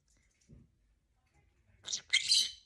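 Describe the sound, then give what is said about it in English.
A pet bird chirps in a couple of short, bright, high-pitched bursts after a stretch of near quiet. “Who is a pretty bird? Inkeses. Who is a pretty bird? Inkeses. Inkes is a pretty bird. Yes, he is.”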